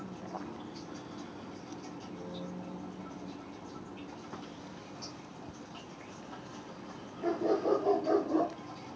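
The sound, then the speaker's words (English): A neighborhood dog barking, with a short burst of several quick barks near the end after a long stretch of faint, quiet background. “Honestly, I'm not sure if that's my dog or this asshole dog next door.”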